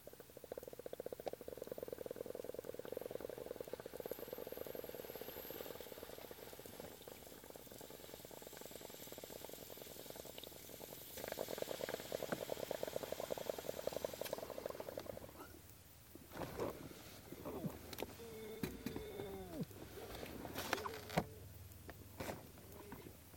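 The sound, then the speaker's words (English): Water bubbles in a bong during a bowl hit: a steady low gurgle for about fifteen seconds, then quieter, irregular sounds and soft clicks. “But here comes another bowl hit.”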